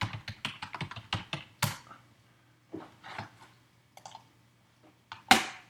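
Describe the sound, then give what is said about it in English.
Rapid typing of a web search on a computer keyboard, a quick run of many crisp keystrokes, then a pause, a few softer taps, and a final sharp mouse click standing out loud and alone. “That was the sound of me typing in Rubik's Cube into Google and then clicking on the first link.”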